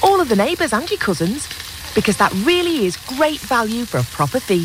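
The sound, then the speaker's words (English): Meat sizzling on a barbecue, with burgers, sausages, pork loin and beef sizzle steaks, gives a steady, soft frying hiss beneath continuous talk. “So fire up the barbecue, whatever the weather.”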